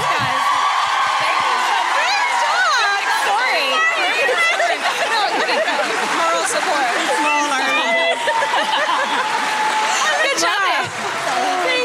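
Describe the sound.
A live audience whoops and cheers in a loud, dense roar of overlapping voices, with some talk mixed in.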